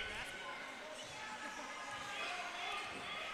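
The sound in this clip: A basketball is dribbled on the court during a boys' high school game, Mooney vs. Genesee Christian. Many rhythmic bounces run steadily beneath a commentator's continuous play-by-play.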